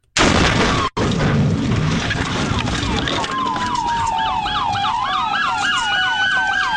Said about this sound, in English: That explosion that you hear at the beginning here, I'll play it again. That is the sound of a head-on collision with her putting herself in harm's way.